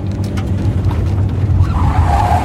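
An old Chevrolet swerving sharply off a highway onto a gravel road, with a loud, steady engine rumble and gritty tire noise throughout and a higher squealing tone that enters near the end.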